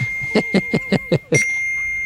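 A padlock sound effect: six quick, evenly spaced bright clanking hits in a tight rhythm, ending in a ringing metallic ding that lingers and fades.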